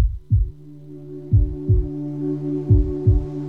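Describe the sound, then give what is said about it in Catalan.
Heartbeat sound effect in a radio station promo: three low double thumps in a lub-dub rhythm, loud and evenly paced over a steady sustained drone. “Sents el cor? Batega fort, oi?”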